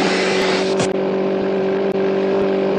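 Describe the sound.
A car engine drones steadily while driving, holding an even, loud hum with a constant pitch and only two brief dips in level, and no voices over it.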